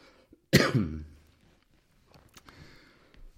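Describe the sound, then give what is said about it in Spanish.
A single loud, harsh cough from a man with a cold and a slight cough, bursting out sharply and trailing off over about half a second, followed by faint shuffling sounds. “tengo un poco de tos. Estoy un poco resfriado.”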